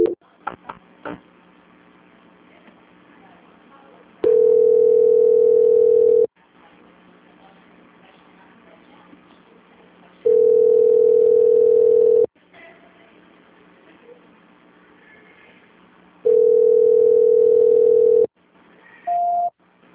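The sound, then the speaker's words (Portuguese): Telephone line tones sound while a call is being transferred: three steady, loud, mid-pitched tones of about two seconds each, separated by quieter line noise, followed by a short higher beep at the end. “Só mais um momento, por favor, que eu estou transferindo a ligação. Transferência.”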